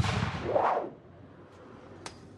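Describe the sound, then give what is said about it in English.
A grappling-hook shot fired with a rope attached, striking a building: a loud rushing whoosh swells and fades within a second, then after a quiet stretch comes a single sharp click. “Now, how about firing one with the rope attached?”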